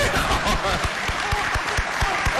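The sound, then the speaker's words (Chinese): Audience applause at a Beijing crosstalk comedy performance: sustained clapping from many hands at a steady level, punctuated by a few louder, deeper claps. “打我一上台，老几位鼓掌 啊， 到现在还鼓掌。”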